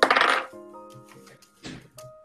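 Dice clattering onto a table during a tabletop role-playing game, a bright burst of rattling at the start followed by a few lighter clicks and taps with ringing tones in between.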